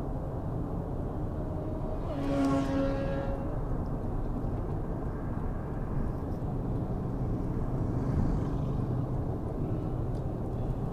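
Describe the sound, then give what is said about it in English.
Bike riders passing on the road, an engine-like hum with a clear tonal whine swelling around two seconds and fading, over a steady low road rumble, with a fainter second pass later. “So, yeah, sorry for the pause, some mad bike riders on the road.”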